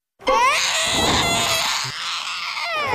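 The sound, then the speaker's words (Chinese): An infant cries loudly in a continuous high-pitched wail. The cry dips briefly near the end, then rises again. “别哭了，我求求你，哭了我耳朵快穿了。”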